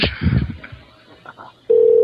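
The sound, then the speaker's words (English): A telephone rings during a prank call: a steady, mid-pitched electronic ringback tone starts abruptly after a brief stretch of voices and holds to the end. “What's with the ringing here? Who are you trying to get?”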